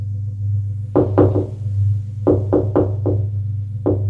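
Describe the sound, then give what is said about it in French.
Knocking on a door comes in three bursts of sharp raps, a short cluster, then a longer run, then a single final knock, over a steady low hum. “on a frappé à la porte.”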